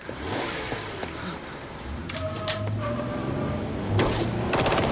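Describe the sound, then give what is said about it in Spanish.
A police inspector fires a gun at people fleeing from a harbour in a thriller. A few sharp shots cut through a dense, continuous roar of noise. “El inspector comienza a disparar contra Milo y sale corriendo tras ellos, que escapan a toda velocidad.”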